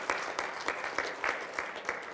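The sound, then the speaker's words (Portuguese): A church audience claps in praise of Jesus, giving steady, rhythmic applause with evenly spaced, bright bursts that repeat throughout. “E a sua bela salva de palmas para Jesus.”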